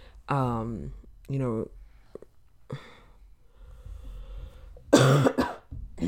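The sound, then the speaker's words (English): A few harsh coughs come in separate bursts, with quieter throat noises and breaths between them and a louder, rougher cough near the end. “I should keep track of how many times I have to stop to cough.”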